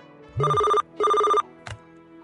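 Telephone bell ringing in a community radio station studio: two equal electronic ring bursts separated by a short pause, followed by a brief click.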